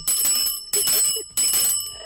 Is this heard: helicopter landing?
no